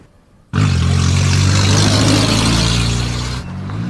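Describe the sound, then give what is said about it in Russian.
Minibus speeding through town streets: a loud engine roar with steady droning tones starts abruptly, holds for about three seconds, then drops away as the vehicle stops. “По улицам городка мчится микроавтобус. Машина останавливается.”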